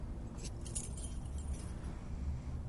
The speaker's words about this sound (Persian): کلید آپارتمانه